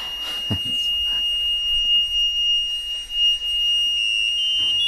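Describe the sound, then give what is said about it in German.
A continuous high-pitched alarm tone sounds in a building in high alpine terrain. It holds steady and loud for the whole stretch, with faint low thuds underneath. “jetzt haben wir gerade so einen Alarm.”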